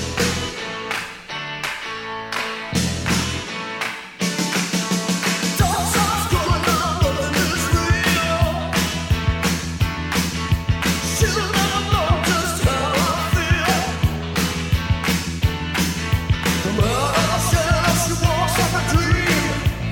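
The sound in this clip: A full-band rock recording from the film Eddie and the Cruisers plays alone, with a sparse, choppy opening that breaks into a steady pounding drumbeat, driving bass and dense layered guitars and keys.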